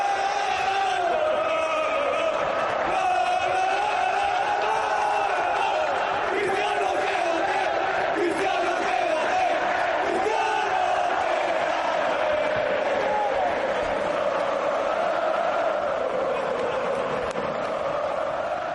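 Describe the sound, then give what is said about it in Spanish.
A football crowd at a Real Madrid celebration chants "Cristiano quédate" in unison. The mass of voices swells and sways in a loud, unbroken chant that runs throughout. “Lo cantaba el público, lo cantaban los compañeros, Cristiano quédate”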